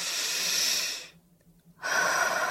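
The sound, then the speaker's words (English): A deep breath is drawn during a guided relaxation exercise. A long airy inhale is followed by a short pause and then a soft, breathy exhale, with no talking. “Take a deep breath.”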